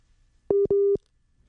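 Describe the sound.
A telephone busy tone follows a dropped call with a guest: two short, steady beeps at the same mid pitch, spaced closely together, alone on an otherwise quiet line.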